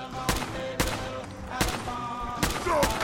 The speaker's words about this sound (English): My gosh, I fired off so many shots